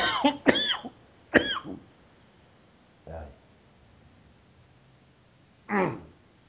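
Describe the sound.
A few short coughs with quiet gaps between them: two rough bursts close together at the start, then a sharp single cough, a softer, lower one, and a final cough after a longer pause.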